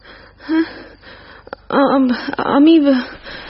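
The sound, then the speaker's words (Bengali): A woman pants, out of breath after a walk outside: a few heavy, irregular gasping breaths, some partly voiced and whimpering, with soft breathy pauses between them. “কি হাঁপাচ্ছেন কেন তো?”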